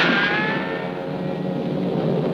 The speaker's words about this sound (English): Faster than a speeding bullet.